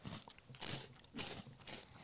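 Crunchy small cookies are bitten and chewed in a few sharp, crackling crunches at an uneven rhythm, fairly soft and with no talk.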